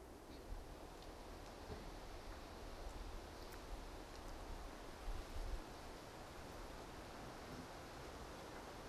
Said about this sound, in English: The wind in the mountains.